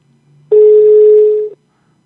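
A single steady telephone dial tone plays while a call is redialed. It is loud and unwavering, lasts about a second, and sounds alone over a faint low hum.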